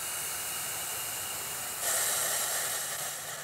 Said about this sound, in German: Nun die Schaumlöscher.